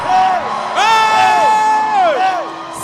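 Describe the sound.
A church audience shouts and whoops loudly, sustained strained voices swooping up and down in pitch and overlapping through the whole clip.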